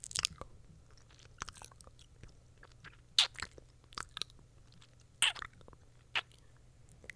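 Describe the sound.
Chewing and crunching cookies: many crisp, irregular crunching bites and wet mastication sounds, a few standing out sharply louder, over a faint low hum, with no talk.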